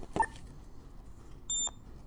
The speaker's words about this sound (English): One high pitched beep, that means it's a 10.